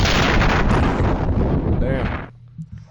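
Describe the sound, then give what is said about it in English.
A nuke being dropped in a video game bursts into a loud, roaring explosion that rumbles steadily, then cuts off abruptly near the end, leaving faint low sounds. “Shoot back. Drop the nuke.”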